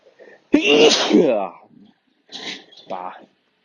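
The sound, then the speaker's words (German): A person with hay fever lets out one loud, forceful sneeze. After it come two brief, softer breathy vocal sounds separated by silence. “ich muss gleich nochmal niesen.”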